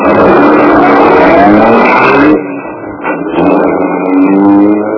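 A car engine drives someone back to town, loud and continuous. Its level and tone dip briefly midway, then it pulls on again steadily to the end.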